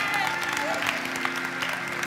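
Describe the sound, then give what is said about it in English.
Congregation clapping hands in praise at a church service: a steady, moderate patter of many hands over a continuous background, with no clear break across the short stretch. “Give the Lord a hand clap of praise if you would.”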